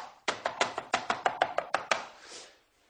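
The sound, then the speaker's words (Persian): Eggplant being chopped with a cleaver, a quick, evenly spaced run of many sharp, crisp knocks lasting under two seconds, then silence. “در حین این که ما داریم این بادمجون ها رو به این حالت ساتوریش میکنیم”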